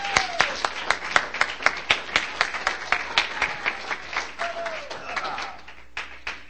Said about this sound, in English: Let's give him a hand. Welcome to the microphone.